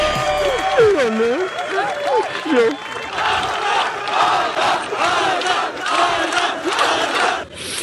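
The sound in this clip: Fans cheer and applaud at the finish line in Los Angeles as a runner completes a run across America. A voice speaks over the crowd at first, then loud, sustained cheering and clapping continue to the end.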